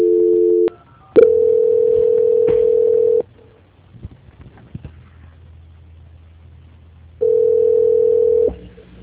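A telephone line tone sounds during a call transfer: steady, sustained electronic tones in three stretches, with a long near-silent gap holding faint clicks before the tone returns.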